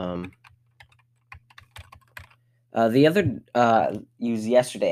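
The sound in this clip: Light, irregular key clicks from typing on a computer keyboard, a scatter of soft taps that falls between two stretches of a person talking.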